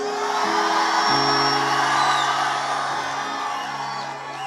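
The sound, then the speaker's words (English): A church audience shouts together in one loud, sustained roar of many voices with whoops mixed in. It fills the whole clip and eases off slightly near the end. “So I want you to give God one major shout. One, two, go.”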